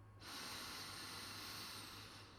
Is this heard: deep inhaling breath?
yes